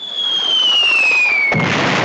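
A bomb sound effect: a high whistling tone glides steadily downward, then a loud, noisy explosion burst cuts in at about one and a half seconds and roars to the end.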